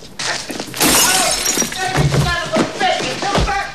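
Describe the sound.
A glass bottle is smashed over a man's head at a shop counter, one sharp bright shattering crash with tinkling shards, with voices and thuds around it.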